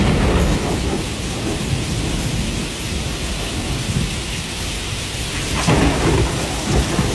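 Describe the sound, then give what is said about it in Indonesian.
Heavy rain pours down without stopping, a dense, loud hiss of drops that never lets up. Low rumbles of thunder roll underneath, with a stronger swell near the end. “Hujan turun tanpa henti, jalur utama menuju desa terputus seperti sagu yang patah di tengah proses tumbuh.”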